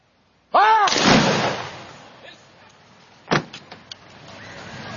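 A flintlock musket volley fired by grenadiers bursts out loudly and decays in a ragged rumble. A sharper single crack and a few smaller clicks follow a couple of seconds later.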